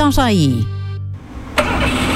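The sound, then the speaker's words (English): A Toyota Corolla engine, running poorly since new spark plugs were fitted, cranks and catches with a sudden loud burst, then settles into a steady, rough running rumble after a brief tonal sound. “Our Corolla hasn't been the same since they fitted those spark plugs.”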